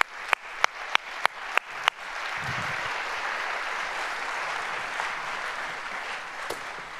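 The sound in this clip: Applause and cheering from a church audience for a senior pastor and a university's head baseball coach. A few sharp, evenly spaced claps open it, then it swells into steady, sustained clapping and cheers that hold to the end.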